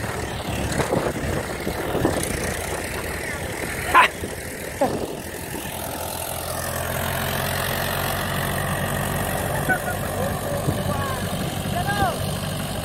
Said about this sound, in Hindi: एक tractor slow है बिल्कुल, ये देखे किसान भाइयों पिछला ट्रैक्टर बिल्कुल स्लो है